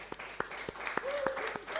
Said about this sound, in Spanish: El aplauso.